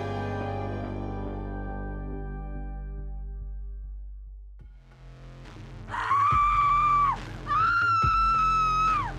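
A piercing scream, two long, high, shrill wails in quick succession, loud and sustained, rising out of a low rumbling drone that fades beforehand.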